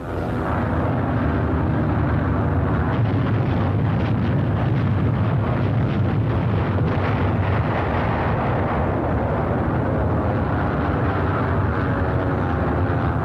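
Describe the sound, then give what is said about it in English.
Heavy aerial bombing explosions pound a wartime invasion area during beach landings, forming a loud, continuous rumbling roar with many overlapping blasts and no pause throughout. “During the landings, the merciless pounding of the entire invasion area continues.”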